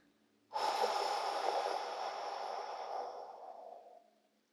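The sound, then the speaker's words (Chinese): A single long, slow breath, airy and soft, is held steadily for about three and a half seconds before fading out. It is taken during a children's guided meditation breathing exercise. “来，我们深深的吸气。再慢慢的吐气出去，”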